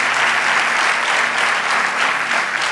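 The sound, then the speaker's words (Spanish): Steady applause from an audience: a dense, even roar of clapping that holds at a constant loudness for about three seconds, with no voices on top. “Vamos, dale ese aplauso.”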